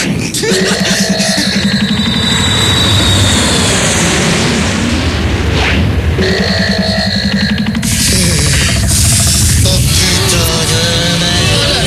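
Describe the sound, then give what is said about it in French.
An airplane engine warming up gives a loud, continuous roar with a droning rumble and a whining edge. Its texture shifts partway through, and other mixed sounds lie on top. “fait chauffer l'avion en direction la Russie!”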